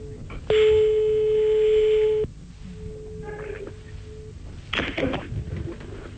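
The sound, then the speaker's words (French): Ringing tone on an outgoing telephone call: one long, steady electronic tone, then a quiet gap and a fainter, shorter tone, over a low background hiss. “On l'appelle maintenant. Et il y a... Ça sonne.”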